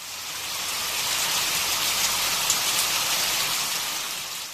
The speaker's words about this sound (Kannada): ಗಾಳಿಯ ವೇಗಕ್ಕೆ ಕಡಿಮೆಯಾಗಿದ್ದ ಮಳೆ ಮತ್ತೆ ಸುರಿಯಲು ಆರಂಭಿಸಿತು.